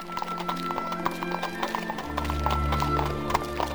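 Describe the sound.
A horse-drawn carriage sets off from an inn, with hooves clip-clopping in a steady rhythm and a low rumble that swells noticeably about halfway through and keeps going.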